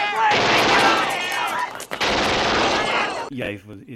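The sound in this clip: Rifle gunfire from a shiny new gun, heard as two long, loud, dense bursts of rapid shots separated by a brief gap, then a quieter, uneven tail.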